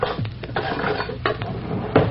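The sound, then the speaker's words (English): A spoon is taken from a kitchen drawer amid rattling metal cutlery, a few sharp clinks and clatters over a steady mechanical rattle from the drawer, with no talk. “Hand me that other spoon from the drawer.”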